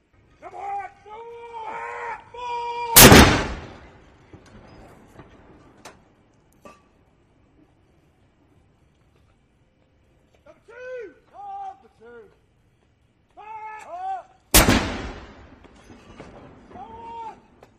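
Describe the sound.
Two loud, sharp blasts from the 62-gun royal salute fired at the Tower of London for King Charles's accession. Each is a brief boom set between stretches of talking.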